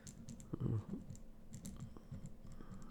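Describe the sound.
Typing on a computer keyboard: a faint, steady patter of soft key clicks with no talking.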